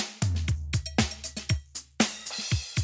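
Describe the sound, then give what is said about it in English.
A basic drum beat of deep kick thumps and crisp snare and hi-hat hits in a steady, quiet pattern, with no voices. “I took the basic drum beat, which sounds like this.”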